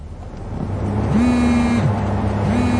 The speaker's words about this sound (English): As we drive across town, I get a message.